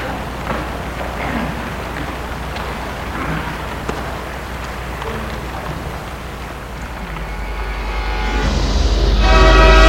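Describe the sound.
A train at a railway station gives a steady, loud rumble, and a strong horn-like blast swells up near the end.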